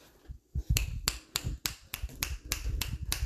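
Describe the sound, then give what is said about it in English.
Finger snapping: many sharp, dry snaps land in a steady, evenly spaced beat, each a bright crack over a soft low background. “A little snapping there. I don't know if anyone out there gets the beatnik reference.”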